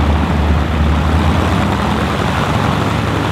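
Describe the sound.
Engines of a Junkers Ju 52/3m vintage propeller aircraft give a loud, dense, unbroken roar with a deep throbbing drone underneath, steady in level throughout with no voices.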